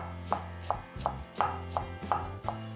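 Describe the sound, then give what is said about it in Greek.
Seven evenly spaced knife strikes as white cabbage is finely chopped on a board, each a sharp, distinct thud in a steady rhythm, with no talk. “πολύ καλά λεπτοκομμένη. Λευκό λάχανο, επίσης ψιλοκομμένο.”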